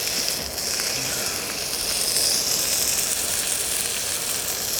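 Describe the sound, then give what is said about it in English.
Meat sears in a pan on a portable isobutane camping stove, giving a continuous, bright sizzling hiss with fine crackles that stays fairly even throughout, with no talking. “I'm just searing the corners so it keeps the juice in there.”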